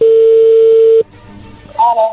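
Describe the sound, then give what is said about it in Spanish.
A steady telephone line tone sounds as a call is dialed. It holds one even pitch for about a second, then cuts off into low line noise. “Ahí se está marcando, vamos a ver qué pasa”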